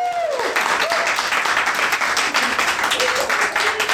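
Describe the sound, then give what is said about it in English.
Applause for a female caller at the end of her call: dense, steady clapping that continues at an even loudness for the whole stretch. “Everybody give her a round of applause.”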